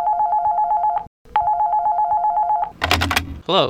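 A telephone rings with two long electronic trills separated by a short gap, then a brief clattering burst and a short swooping noise once the ringing stops.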